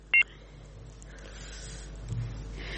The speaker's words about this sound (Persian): متاسفانه بازم تماس برادر ما فکر کنم که قطع شد